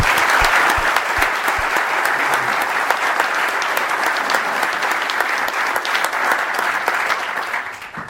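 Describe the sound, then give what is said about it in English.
Audience applause at a panel discussion event, dense and steady clapping from many hands that carries through and tapers slightly at the end. “Thank you very much. Let's give them a hand just for this round.”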